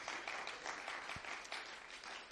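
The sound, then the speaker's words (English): Audience applause at a gathering, thanking the sound crew: a faint, dense, steady patter of many hands clapping that runs unbroken through the whole clip without voices. “Give them applause.”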